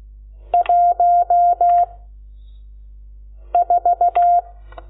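Telephone keypad dialing tones as a number is keyed in by hand: a group of five short, clean beeps, a pause, then four more, each tone brief and evenly spaced.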